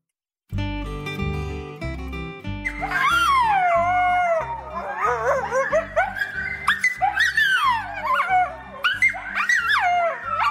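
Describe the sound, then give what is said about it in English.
Coyotes howl and yip in a loud chorus of wavering, gliding high-pitched cries that rise and fall repeatedly over steady low tones, with no talking. “The sound of coyotes brings us back in on Creature Comforts on MPB Think Radio.”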